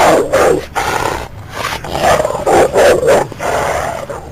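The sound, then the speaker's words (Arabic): A fierce dog barks and growls, standing still and facing the people in front of it. Loud, rough barks come in repeated bursts over a low rumbling growl. “نطينا احنا التلاتة لما سمعنا صوت الكلب. لقينا كلب واقف ورانا، نظراته شرسة جدا، واقف ما بيتحركش، عمال ينبح ويهوه بالشكل ده في وشنا بس.”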